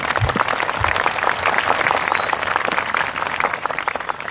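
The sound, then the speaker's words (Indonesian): An audience at a speech claps for NU with lively, continuous applause of many hands that stays loud and even throughout. “Tepuk tangan untuk NU.”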